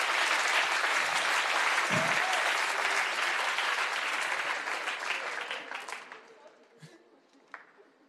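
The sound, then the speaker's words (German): Congregational applause in a church: sustained, dense clapping that stays loud for several seconds, then thins out and fades, with a few scattered claps at the end. “Let's put our hands together for the Lord. Lass mal dem Herrn einen Applaus geben.”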